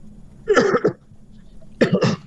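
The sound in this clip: Coughing from a person with a cough: two short bursts, each a quick double cough, separated by a brief pause, fairly loud against a quiet background.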